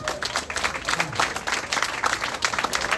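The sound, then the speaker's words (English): Audience applause at a remembrance concert: dense, continuous clapping that stays loud and even throughout. “How about give yourself a nice round of applause, and William too”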